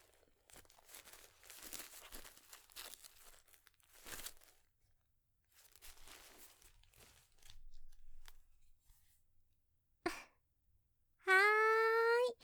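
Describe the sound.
Crinkling plastic from a disposable diaper as its front is closed and the tapes fastened, with several soft rustling bursts and gaps between them, a short sharp rip near the end, then a brief high-pitched vocal sound.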